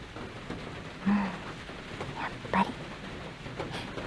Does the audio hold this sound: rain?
yes